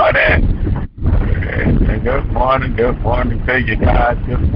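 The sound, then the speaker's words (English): Noise around a car being driven: a steady low road rumble with wind buffeting, running under a person talking. “So it's a little noisy around me. Forgive me. I'm driving, doing all kinds of stuff.”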